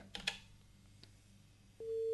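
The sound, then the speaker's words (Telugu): A steady telephone line tone as a caller connects to a live phone-in song-request line. It follows a few faint clicks and then holds at an even, moderate level to the end. “ఈనాటి hello FM కార్యక్రమం మొదటి call ఎవరో చూద్దాం.”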